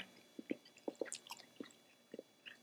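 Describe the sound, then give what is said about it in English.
Faint wet chewing of gum in someone's mouth, a series of soft, irregular clicks and smacks spread across a few seconds. “Forgive me, I'm trying to chew gum to kind of keep my throat lubricated here.”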